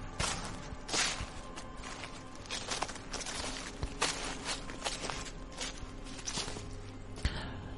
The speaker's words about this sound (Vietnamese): Từ phía bên kia cánh rừng, âm thanh bước chân người dẫm lên lá cây sột soạt vang lên.